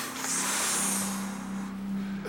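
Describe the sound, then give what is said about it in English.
A long, deep breath drawn in by a contestant on a televised quiz show: a steady airy hiss lasting about two seconds over a constant low hum, with no talk. “Take a deep breath in.”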